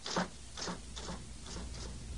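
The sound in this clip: Slow typing on a keyboard, with five faint, evenly spaced keystrokes.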